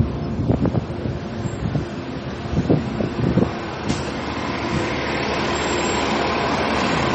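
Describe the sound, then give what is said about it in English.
Loud buses passing close by while people walk outdoors, a few throaty engine surges early on giving way to a steady, heavy rumble mixed with wind noise on the microphone. “Sorry for the background noise, listeners. We're walking by a lot of buses right now. Just bear with us. These things are loud.”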